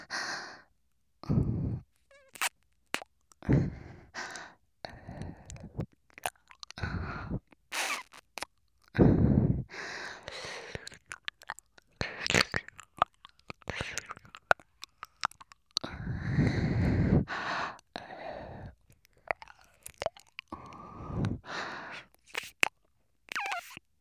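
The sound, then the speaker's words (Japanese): Wet ear-licking mouth sounds in an ASMR session: many irregular smacks, slurps and breathy bursts, some short and some drawn out, with soft sighs and breaths between them and no speech. “今度はお耳を舐めさせていただきます。まずはこちらから。”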